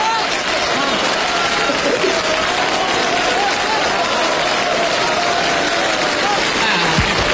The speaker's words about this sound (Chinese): 知道大家为什么鼓掌吗？